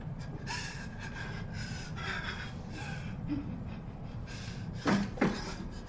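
A woman gasps sharply, two quick breathy bursts near the end over a steady low background hiss.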